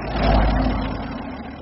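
A car pulling away, a low engine rumble that swells briefly and then eases off over a second or so.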